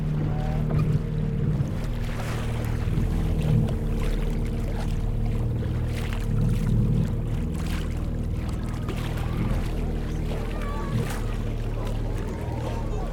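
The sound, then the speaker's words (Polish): Water lapping against the wooden boards of a pier, with waves washing at a beach; a loud, continuous, rushing wash that holds steady from start to end. “Słyszę dźwięki wody obijającej się o deski pomostu, szum fal.”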